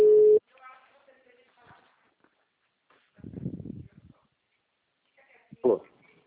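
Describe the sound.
A telephone tone sounds as a call is placed: one short, steady, mid-pitched beep at the start, followed by quiet stretches and faint voices.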